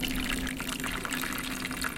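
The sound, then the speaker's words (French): Water poured over pebbles to imitate a small rain shower, a steady, continuous hissing splash that stays fairly loud throughout without a break. “La petite averse est tombée. Donc, ici, on voit de l'eau.”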